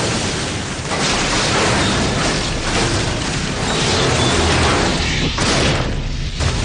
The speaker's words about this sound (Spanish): Asumiendo lo inevitable, cierra los ojos mientras el tren se desploma cayendo a un aparcamiento subterráneo.